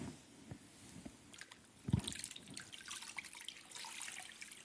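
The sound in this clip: Water runs and drips faintly as a folded, elongated towel is soaked to make a wet compress, with soft splashes, a few small clicks and a slightly louder trickle in the second half.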